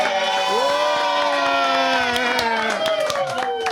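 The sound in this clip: Crowd cheering at a French handball championship inside the hall, dominated by young voices shouting and chanting together in a loud, continuous roar that holds steady throughout.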